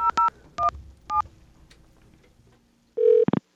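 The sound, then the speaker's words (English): Telephone tones on a line whose service was cut off for an unpaid bill: four short touch-tone beeps, then a faint hum, then a loud steady tone ending in a few quick bursts, with no talk. “this is something that you might have gotten if you didn't pay your bill and you tried to call anybody after that happened.”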